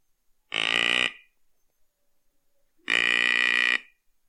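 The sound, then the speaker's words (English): A hunter's handheld deer grunt call imitates a buck trailing a doe in heat. Two loud, buzzy, nasal grunts sound alone, the second longer than the first, separated by a silent pause. “So, what I did is I pulled this out and I made this sound.”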